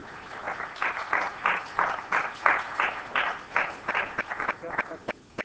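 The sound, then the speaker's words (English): A church audience applauds to welcome a guest preacher to the pulpit. The clapping comes in a steady series of rhythmic bursts of moderate loudness, thinning out toward the end. “Let's give him a hand, please.”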